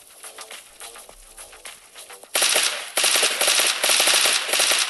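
Gunfire in a video game shooter: a quiet, sparse stretch gives way midway to loud, rapid automatic fire in dense, continuous bursts.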